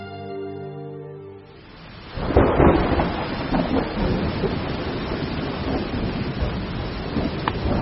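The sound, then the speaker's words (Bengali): A thunderstorm with rain and hail in November: a loud burst of thunder breaks in after a quieter opening, then dense, steady rain noise carries on to the end. “শীতকাল আসার আগে এ কি দুর্যোগ শুরু হলো রে বাবা, ঝড় শিলাবৃষ্টি”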